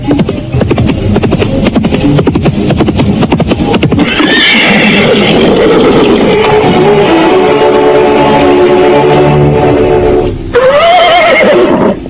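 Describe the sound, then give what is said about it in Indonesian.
A horse approaching: quick, steady hoofbeats, then two long, loud neighs, the first drawn out and falling in pitch, the second shorter and rising then dropping, with no voices. “pada saat itulah terdengar derap seekor kuda mendekat.”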